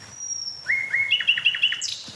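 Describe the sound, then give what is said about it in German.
A nightingale sings a short phrase: a thin high note, then a quick run of repeated bright chirps that step up in pitch, ending on a higher whistle. “Sehr schön. Danke, liebe Nachtigall.”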